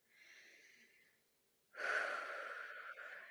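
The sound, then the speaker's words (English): A deep breath taken together during a guided meditation: a soft, airy inhale of about a second, a short pause, then a longer, louder breathy exhale that trails off slowly. “Let's just take a deep breath together to let them go.”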